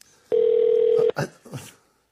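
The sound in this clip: A telephone tone sounds as a call is placed: one loud, steady, mid-pitched beep lasting under a second, followed by a couple of short bursts of voice.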